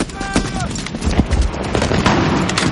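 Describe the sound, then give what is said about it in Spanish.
Gunfire in a World War II film battle at a bridge as German troops arrive: rapid, sharp shots crack over a dense, continuous roar of combat noise that stays loud throughout. “Entre ellos se encuentra el prisionero alemán que liberaron en la colina. Afam está en el socavón de al lado y lo ve disparando.”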